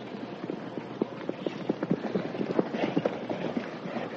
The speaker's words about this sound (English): Somebody's riding hard.